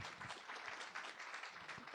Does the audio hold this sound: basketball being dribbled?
no